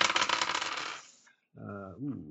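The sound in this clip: Dice rattle and tumble for a medical check roll during a game: a dense, clattering burst that slowly fades out, followed by a person speaking.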